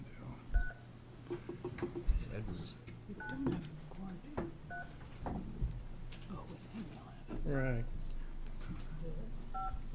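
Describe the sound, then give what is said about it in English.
Short keypad dialing tones as someone dials a senator into a Senate committee meeting by phone; a few brief paired beeps sound amid talk and background murmur in the room. “We have Senator Riley dialed in. I will have to dial Senator Riley.”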